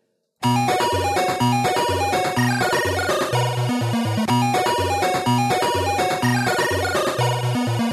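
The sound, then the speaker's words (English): Chiptune music in the 8-bit video game style: bright, buzzy synthetic square-wave melody over a bouncing bass line and clicky percussion, looping at a steady tempo, loud and continuous after a brief silent start. “Some people, including myself, remember when video game music sounded like this.”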